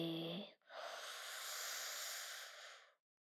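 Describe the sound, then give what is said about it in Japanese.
A deep breath in is drawn as a long, steady, airy inhalation of about two seconds. It comes right after a brief spoken voice and is faint overall. “深呼吸、深呼吸。 はい、吸って、”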